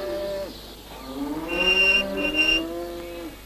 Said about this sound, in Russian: Машина едет сквозь стадо коров.